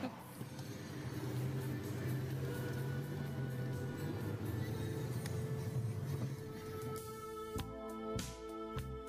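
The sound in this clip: A taxi ride in a car brings a continuous engine and road rumble that holds steady for most of the time, then thins out near the end as a few sharp knocks break through.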